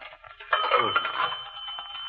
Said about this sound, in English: So we find a phone booth. Here, this one. Yeah. And we make a phone call.